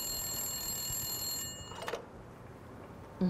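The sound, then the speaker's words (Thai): A telephone rings with a steady, high-pitched electronic trill that stops partway through. Quiet follows, broken by a couple of faint knocks. “ใครนะโทรมาช่างไม่รู้จักเวล่ำเวลาซะเลย”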